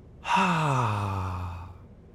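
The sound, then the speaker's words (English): A slow, voiced exhale through the mouth during a calm breathing exercise, heard as a single long sigh whose pitch falls gradually before it fades. “let's breathe in through our noses and slowly breathe out through our mouths.”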